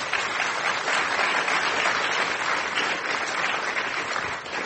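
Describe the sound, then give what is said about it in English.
An audience at the Commonwealth Club applauds to welcome the speakers, with dense, sustained clapping at an even, fairly loud level that tapers slightly at the end. “Please give them a warm Commonwealth Club welcome.”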